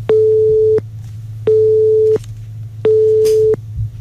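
A telephone tone after a call is cut off: three loud, steady beeps, each lasting under a second, evenly spaced with short silences between them, at a fixed mid pitch over a faint low hum.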